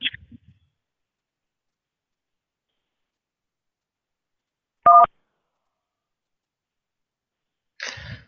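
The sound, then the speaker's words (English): A single short telephone keypad beep during an automated shipping-confirmation prompt, heard alone in near silence, with brief faint noises at the very start and end. “please go ahead and press 1 on your phone. And if not, please press 2.”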